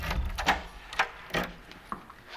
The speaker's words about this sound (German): Der Pater schließt eine Tür auf.